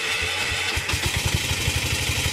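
A repaired motor rickshaw's small engine runs with a steady, rhythmic chugging of low thumps and an even, unbroken loudness, with no voices.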